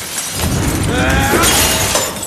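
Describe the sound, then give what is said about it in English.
Glass display case smashed, a loud crash of breaking glass followed by continuous shattering and tinkling shards that lasts a couple of seconds. “He then smashes the glass case containing the other killing hammer.”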